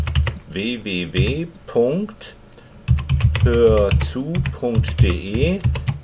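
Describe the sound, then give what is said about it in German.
Keystrokes on a computer keyboard pressing a shortcut to open a web address, several quick clicks scattered under a talking voice. “Hierzu drücke ich Ctrl O, um die Internetseite anzugeben.”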